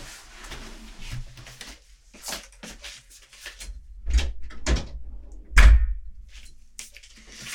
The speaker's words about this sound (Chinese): 快进来，我去把门关上，等我一下。